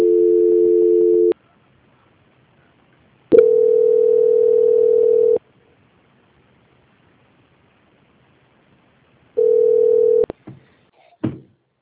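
Steady telephone tones while a call is transferred: three even, loud hums of about one to two seconds each, separated by silence, followed by a few sharp clicks at the end.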